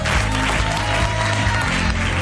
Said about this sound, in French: applaudissez-le